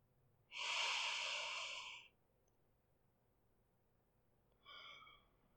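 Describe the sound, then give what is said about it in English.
Deep breaths drawn in while inhaling steam from something hot: one long, breathy inhale, a pause, then a shorter second breath, both soft and airy. “Just breathe in the steam right now. Nuh-uh. Deeper breaths. Take one with me.”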